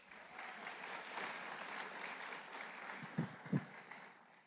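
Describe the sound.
A church audience applauds during a service to welcome a speaker to the front. The clapping is a steady, dense wash, fairly soft, with a couple of louder claps standing out near the end.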